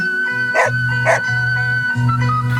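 A dog gives two short, sharp barks about half a second apart over a steady musical background of sustained tones.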